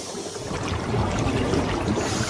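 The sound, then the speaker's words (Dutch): Underwater sound from a diver's film of colourful sea slugs: a steady, dense rushing and bubbling wash of water noise that grows slightly fuller after the first second, with no voices. “Zie je allerlei kleurrijke onderwaterslakken, oranje spikkels, blauwe strepen, heel mooi. En het geluid van het filmpje, ik wil het toch even laten horen, alleen dat al is geweldig hier.”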